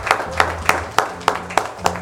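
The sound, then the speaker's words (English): A church audience claps hands in a steady, even rhythm, with about seven sharp claps spaced evenly and a low sustained tone underneath. “Let's give the Lord a hand clap of praise.”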